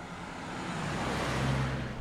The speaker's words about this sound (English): There's cemetery security driving by.